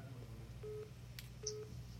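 Telephone tones as a call is dialed in: two short, faint beeps separated by a pause, over a low steady hum.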